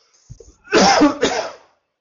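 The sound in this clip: Dry, harsh coughing from a speaker with a dry throat, heard alone. A faint throat catch, then two loud hacking bursts close together.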